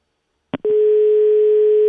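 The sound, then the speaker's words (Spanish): A telephone dial tone during an attempt to place a call: a click as the line opens, then a steady, loud, unbroken tone that runs to the end, with no voices. “A ver, que suene el tono.”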